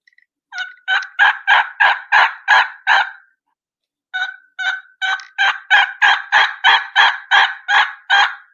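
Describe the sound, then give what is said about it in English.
A hunter uses a turkey call to make a hen turkey yelp. Two runs of sharp, evenly spaced raspy yelps are separated by a short pause. The second run is longer, and the notes stand out clearly with no talk. “So I'm just gonna give a basic, just a hen yelp.”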